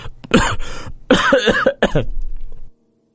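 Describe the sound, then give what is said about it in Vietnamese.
A man coughs in a harsh, rapid fit of several chesty bursts that run together for over two seconds before cutting off into silence. “Một câu còn chưa nói hết, gã đã lại dặn cổ mà ho.”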